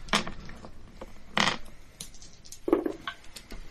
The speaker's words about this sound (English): You're welcome to roll in my dice box if that helps.